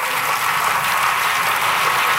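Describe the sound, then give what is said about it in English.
Lawmakers in the French National Assembly applaud after a unanimous vote to repeal the Code Noir, a dense, even roar of many hands that holds steady from start to finish. “Applause breaking out in the National Assembly after lawmakers voted unanimously to repeal the Code Noir, or the Black Code.”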